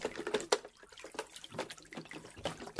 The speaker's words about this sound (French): Oops! The soap slipped into the water.